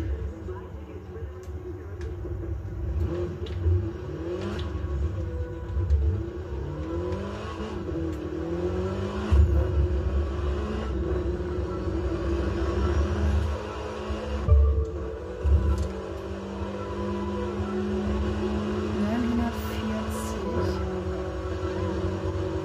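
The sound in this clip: A car engine from a driving video game, the gangster car, revs continuously with rising and falling pitch as the player drives along a route.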